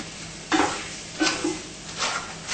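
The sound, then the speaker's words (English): Tofu and sausage stir-frying in a pan give a constant background sizzle, broken by three scraping stirs at roughly even intervals, each a short burst of louder frying and utensil scrape. “The stir-fried taste of tofu and sausage is different than when it's just boiled. You see? Yes. That's why it's stir-fried.”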